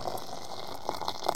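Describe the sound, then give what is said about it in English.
Hot water from a boiled kettle poured into a cup, a brief, faint liquid trickle lasting about a second. “Now, you just have to boil the kettle without them noticing.”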